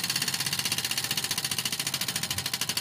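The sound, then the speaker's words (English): A giant prize wheel spins in a studio, its clicker ticking rapidly and evenly throughout. The steady run of many quick taps stays fairly faint and has no voices over it. “I'm going to get over to the big wheel and spin it.”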